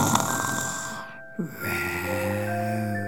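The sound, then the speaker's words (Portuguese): Snoring from a lion sleeping under a tree: a low droning snore that breaks off for a brief pause, then resumes steady and fairly loud. “E roncava.”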